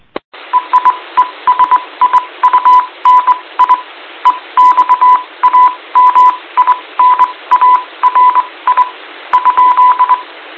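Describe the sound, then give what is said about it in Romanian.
Morse code telegraphy heard over an amateur radio link: a steady mid-pitched tone keyed on and off in many short and long beeps, riding on a constant band of radio hiss, with no voices. “Rugămintea mea e să veniți în SSB. Nu toată lumea pricepe telegrafie.”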